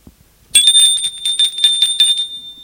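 An old-fashioned doorbell rings at an old Paris townhouse. It starts abruptly with a bright, loud metallic ring that rattles on steadily for about two seconds, then fades out with no voices.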